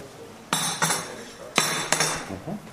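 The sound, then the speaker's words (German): Date coffee made from roasted, ground dates is prepared, with a few sharp knocking and clinking impacts of hard utensils against metal or crockery, irregularly spaced and moderately loud. “Hier könnt ihr hören, wie der Dattelkaffee gemacht wird.”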